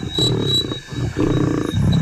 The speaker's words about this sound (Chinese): 猎物个头不大，雄狮霸占着猎物，拒绝与其他狮子分享。